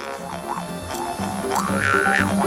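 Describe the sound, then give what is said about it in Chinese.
A jaw harp, or mouth harp, played by a father, with a tone that differs from the local tribe's instrument: a buzzing, twanging drone whose vowel-like resonances swoop up and down in quick, rhythmic shifts, moderately loud and alone. “你爸爸现在吹的口簧琴声音也很特别耶，听起来和我们部落的不一样”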